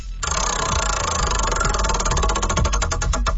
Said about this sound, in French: on va tourner la roue pour toi, justement, pour voir ce que tu vas obtenir ce matin. C'est parti.